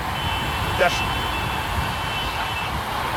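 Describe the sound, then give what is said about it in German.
A car horn honks at a group of cyclists riding side by side on a road: one short toot stands out over steady road and wind noise. “jetzt werden wir einmal angehupt. Wir müssen einmal gerade in einer Reihe fahren hier. Ja, hier meint ein Radfahrer nicht so besonders, ein Autofahrer nicht so besonders gut mit uns.”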